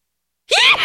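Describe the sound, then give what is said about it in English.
A sneeze blasted straight into a microphone: one loud, sudden burst that breaks a half-second of silence and stays strong to the end. “I saw you hovering your finger over the mic and about to turn it off before you sneezed, and now you sneezed right into the mic.”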